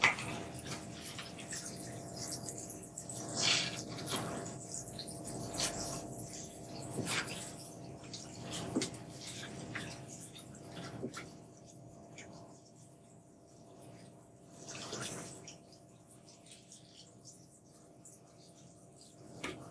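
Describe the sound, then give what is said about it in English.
Washing a swimming head cap in water: soft sloshing, splashing and dripping come in intermittent bursts over a long stretch, with a faint steady hiss beneath. “So I'm gonna give my head cap a little bit of a wash.”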